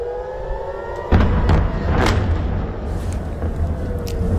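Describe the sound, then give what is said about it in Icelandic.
Air raid sirens and explosions over Tel Aviv, Israel, in the morning: a faint, steady siren tone is followed by a sudden loud, low rumbling blast that keeps roaring under the wailing tone to the end. “Svona hljómaði Tel Aviv í Ísrael í morgun, loftvarnaflautur og sprengingar.”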